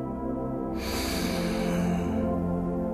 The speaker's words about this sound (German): Beginnen wir damit, unsere Aufmerksamkeit auf den Atem zu legen. Atme weiter tief durch die Nase ein